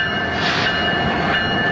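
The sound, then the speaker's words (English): A train rolls along railroad tracks downtown, making a loud, steady rushing rumble of wheels and cars, with a thin high ringing squeal running throughout. “You can hear it on its way to wherever it's being sent to. The railroad tracks are a good place to record because it gives you that, like, downtownsy feel.”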